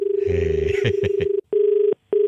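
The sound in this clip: A telephone rings with an electronic, buzzing tone that sounds in long bursts separated by short silent gaps. A few brief clicks and noises cut across the first burst.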